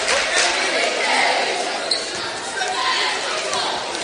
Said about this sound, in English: Carter Gasson dribbles the ball. Puts it up there and good again.